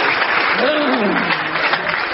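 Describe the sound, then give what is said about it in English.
Studio audience applause, a loud, steady wash of clapping hands, with a voice rising briefly over it before the clapping carries on to the end. “And the audience showed their appreciation.”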